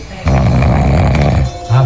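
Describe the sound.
A sleeping person snores: one long, low, rasping rumble, then a brief pause and the loud start of another snore.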